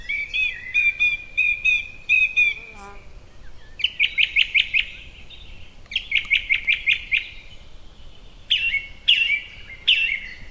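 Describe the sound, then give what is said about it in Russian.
A song thrush sings loud, clear, high phrases. Each phrase repeats one syllable several times in quick succession, and short pauses separate the phrases. “А певчий дрозд повторяет слоги в своей песне, как будто зовет: «Филипп, Филипп, приди, приди, чай пить, чай пить».”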